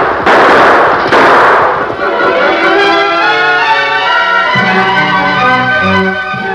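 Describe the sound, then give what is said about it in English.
Gunshots fired by three startled men in a Western scene: two loud, sharp blasts in the first second or so, then a sustained tonal backdrop carries on without further bursts. “The three men, startled by the sudden appearance of the Lone Ranger, fired a few shots, then turned and fled.”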